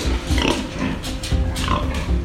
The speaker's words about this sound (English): So I went to a pig farm on the coastal province of Fujian, and I went to see one of a really typical kind of smallish pig farm. He had about 150 pigs.